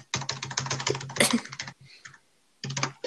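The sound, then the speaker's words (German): Typing a comment on a computer keyboard: dense runs of quick, crisp key clicks, a brief quieter gap with a few light taps, then another fast burst of keystrokes. “So, da schreibe ich jetzt auch erstmal einen Kommentar drunter.”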